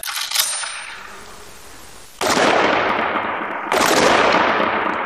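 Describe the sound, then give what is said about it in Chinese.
Handgun shots ring out during police special-forces live-fire practice: two loud, sharp reports, each followed by a long ringing tail, with a fainter crack near the start. “开始射击。”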